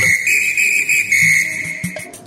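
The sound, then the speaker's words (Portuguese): A referee's whistle at a football match gives one long, steady, shrill blast lasting about two seconds, with a few dull low knocks underneath as it ends. “Fique de olho no apito.”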